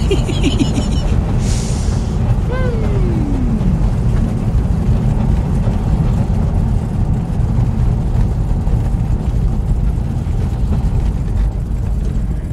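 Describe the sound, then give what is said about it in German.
Loud, steady droning engine of a Skyracer aircraft landing in a video game, rattling like an old propeller plane about to fall apart, with a brief descending whine early on over the continuous rumble. “Warum hört sich dieser Skyracer eigentlich beim Landen so an wie ein altes Propellerflugzeug, was gleich auseinanderfällt?”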